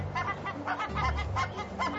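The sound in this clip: Barnacle geese calling from a nest high on a cliff: a rapid series of short, harsh, clucking honks that repeat throughout, with a low rumble underneath.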